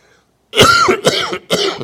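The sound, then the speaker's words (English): Three sharp, loud coughs from one person, the first the longest and roughest, the next two shorter bursts in quick succession after a brief silence. “I'm coughing demons out. That's what I'm doing.”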